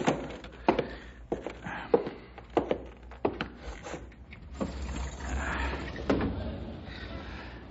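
A window being opened: a run of knocks, thuds and creaks, then a steadier, broader rush of sound as it comes open, with a few last bumps.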